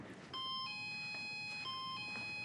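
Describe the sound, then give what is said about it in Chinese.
An electronic doorbell chime rings at a home's front door: steady, bright, multi-toned notes that shift pitch in a repeating pattern. It sounds faint throughout, with no voices. “谁又摁铃儿？这是？我跟你说，我现在一听见门铃响，我这脑袋都大了。”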